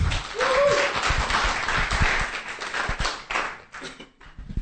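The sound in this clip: A church audience applauds to welcome a speaker. The claps are scattered but lively and thin out toward the end.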